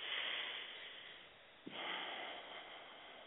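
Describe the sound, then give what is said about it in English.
A deep healing breath: a long breathy rush of air, a brief catch partway through, then more steady airflow. It is heard alone, with no talk. “Take a healing breath.”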